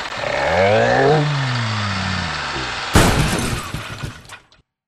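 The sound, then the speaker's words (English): A big truck engine hums with a steady, throaty drone whose pitch rises and then falls, then gives way to a sudden loud crash of something shattering that fades out. “Zoom! Zoom! The big truck is coming, humming all the way.”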